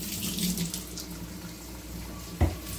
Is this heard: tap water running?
yes

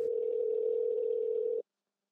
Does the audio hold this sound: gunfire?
no

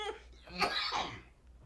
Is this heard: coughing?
yes

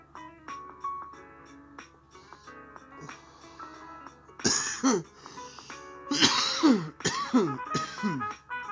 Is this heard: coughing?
yes

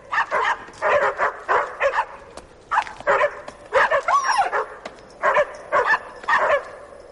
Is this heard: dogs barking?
yes

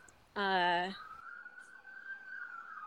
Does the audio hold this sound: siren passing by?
yes

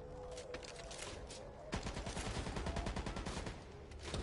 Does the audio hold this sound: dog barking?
no

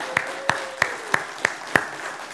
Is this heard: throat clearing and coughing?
no

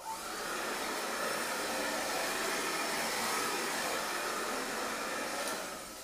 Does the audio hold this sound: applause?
no

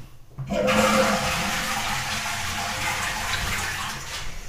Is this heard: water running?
yes

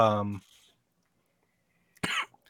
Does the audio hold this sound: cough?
yes

